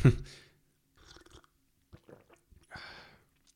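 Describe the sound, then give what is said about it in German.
Someone chews food with wet, crunchy mouth noises, coming in a few short bursts separated by quiet gaps, faint overall with soft breathy sounds among them. “Hey, cool, wir podcasten und quatschen und essen gleichzeitig.”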